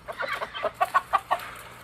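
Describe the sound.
Quick, soft quacks from a slow-moving duck fitted with a protective shoe as it is fed, a run of short, evenly spaced calls over a low background hum.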